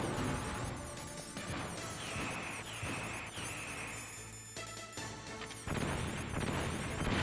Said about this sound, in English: I just threw a grenade.